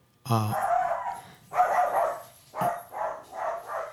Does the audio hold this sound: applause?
no